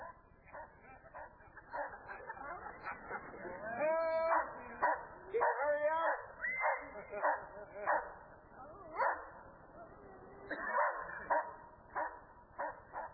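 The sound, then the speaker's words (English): A guard dog held in a watch position over a suspect barks and yips repeatedly in many short, sharp bursts, mixed with whimpering sounds. “Susie's placed the dog in a watch position and told the assailant not to move. If he moves, the dog will instantly attack.”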